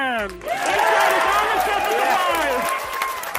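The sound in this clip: NASA flight team shouting and clapping as the InSight lander touches down on Mars: a loud, sustained roar of excited voices with cheering and applause.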